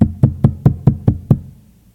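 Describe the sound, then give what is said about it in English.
Seven evenly spaced knocks land on a door, each a dull, low, resonant thud at a steady, fairly quick rhythm, followed by fading quiet. “knocking and knocking. He kept knocking.”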